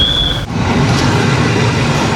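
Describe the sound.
A passenger train at the station on track two gives off a loud, steady rail rumble and clatter. A thin high whine sounds at the start and cuts off just before a brief dip, then the rumble continues evenly.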